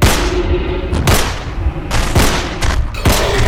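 Gunfire during a frantic fight with a monster: many loud, sharp shots crack out over a dense, roaring background, some spaced apart and others in quick succession.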